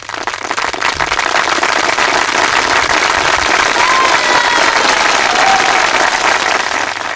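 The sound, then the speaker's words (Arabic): Audience applause for contest participants: sustained, dense clapping that stays loud and even for about seven seconds. “مثالش نعطيهم 1000 على 20 كيما أصدقاء الكل، يستحقوا تصفيق أخرى.”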